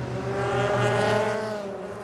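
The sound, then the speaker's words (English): Race car engines droning at a held, steady pitch as cars leave the pit lane on the speed limiter at the 2023 WeatherTech Sports Car Championship race at Indianapolis, a Corvette among them; a continuous, even hum. “Race off the pit lane on the pit lane speed limiter, and it is the Corvette that gets the jump into the RFID readers for the Michelin tyres at the end of the pit lane.”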